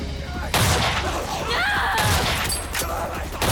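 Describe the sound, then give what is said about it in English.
Rifle gunfire aimed at zombies: a few loud, sharp shots cut through a dense, noisy background. “Claire strides forward, firing at the zombies as they feast on the writhing Mikey.”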